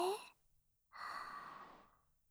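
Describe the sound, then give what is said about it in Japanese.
A slow, soft breath drawn in during a calm relaxation breathing exercise follows a brief voiced sound, the airy inhale lasting about a second before trailing off. “私のなでなでに合わせて、ゆっくりと、息を吸って”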